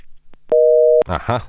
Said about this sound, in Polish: Się ktoś dodzwonił i się rozłączył.